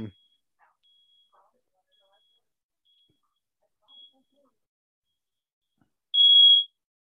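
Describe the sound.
A smoke detector goes off with a single short, high electronic beep near the end, after a long stretch of near silence broken only by a couple of faint ticks.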